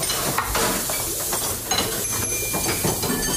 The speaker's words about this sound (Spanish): Son las cocinas donde se gesta la gastronomía navarra